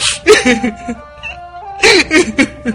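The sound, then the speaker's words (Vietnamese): Soft sobbing from someone grieving a close friend who was murdered in her sleep: two bursts of broken, whimpering crying separated by a pause, over a faint sustained musical tone. “Tư Dao lại thúc thích khóc.”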